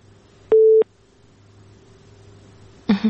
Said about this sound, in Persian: فکر کنم تماس اینو قطع شد.